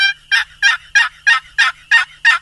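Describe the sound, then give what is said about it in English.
A turkey call imitates a wild turkey hen's yelp: a rapid, evenly spaced series of short, scratchy, raspy notes, each loud and nasal, repeating in a steady rhythm with silence between. “That's the yelp of the wild turkey hen. It's yelping like the hen to the gobbler.”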